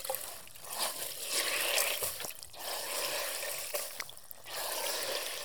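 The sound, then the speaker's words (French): Soft watery trickling and wet dabbing from a hot, water-soaked sponge pressed onto glue-coated leather during organ and harmonium restoration, a steady faint liquid hiss with a few small clicks and no voices. “j'ai appliqué la colle sur le cuir déjà. Là, j'utilise une éponge chaude.”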